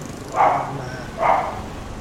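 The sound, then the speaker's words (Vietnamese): A dog barking twice, two muffled mid-pitched barks about a second apart, each standing out briefly from a low steady background. “Xin lỗi quý vị. Xin lỗi con chó đó nha.”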